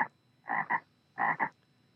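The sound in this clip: Golden poison frog croaking in short, rasping bursts: two closely spaced double croaks separated by a quiet gap, with a brief clipped call at the very start.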